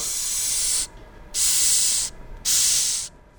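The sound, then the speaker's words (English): A Madagascar hissing cockroach hisses in three long, loud, breathy bursts separated by short quiet gaps, with a fourth hiss just starting at the end. “That's the sound of a Madagascar hissing cockroach”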